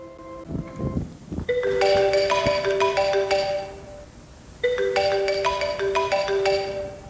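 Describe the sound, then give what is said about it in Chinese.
A telephone rings with a bright electronic melody that plays twice, separated by a brief pause, after a few soft knocks at the start. “直到一通电话打破了这沉寂。”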